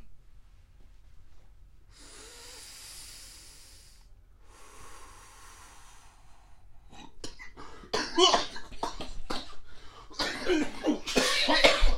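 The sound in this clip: Two long hissing inhales of smoke are followed by a burst of harsh, loud coughing, with many rough coughs and throaty splutters that grow stronger toward the end.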